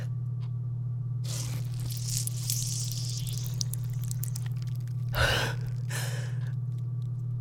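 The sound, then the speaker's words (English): Wet tearing and squishing sounds come from cutting along the stitching of a body that has already had a procedure, in a few noisy bursts over a steady low hum. “I'll cut along the stitching.”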